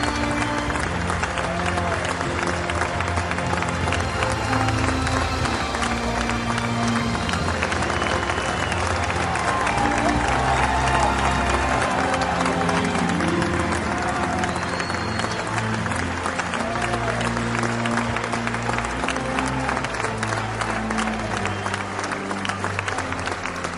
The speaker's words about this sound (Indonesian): Suara merdunya memukau penonton bahkan sang raja. Mereka mengeluhkan namanya dan bertepuk tangan meriah usai dia bernyanyi.